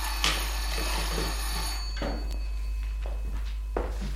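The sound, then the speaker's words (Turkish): A doorbell rings in a few separate bell-like bursts with a clear tonal ring, spaced a couple of seconds apart over a low steady background hum. “Biri kapının zilini çalıyor.”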